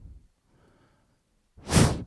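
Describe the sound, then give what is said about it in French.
A single breath blown out hard, a short breathy whoosh near the end that swells quickly and cuts off. Faint rustling comes before it, and no voices are heard. “Un souffle.”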